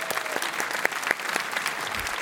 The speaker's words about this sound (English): But we want to give you guys a round of applause.